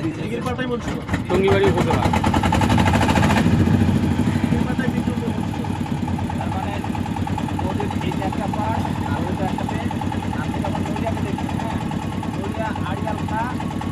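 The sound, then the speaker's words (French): A motor started with a removable hand crank chugs steadily, with a louder rough stretch early on before settling into an even running rhythm while people talk over it. “Alors, il y a une manivelle pour faire démarrer le moteur, là. Voilà, il y a manivelle amovible.”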